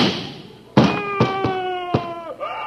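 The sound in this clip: Gunshot sound effect: a few sharp, thudding bangs in quick succession, with a sustained ringing tone held beneath them.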